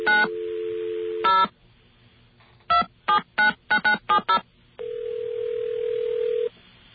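Telephone tones while calling an operator: a steady dial tone, then a rapid run of touch-tone key presses, followed by a long steady single tone, all heard alone without voices.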